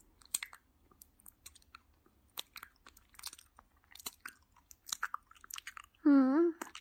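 Wet chewing of a meat bun: many soft, quick mouth clicks and smacks run at a fairly even pace. A loud voiced moan-like sound ends it.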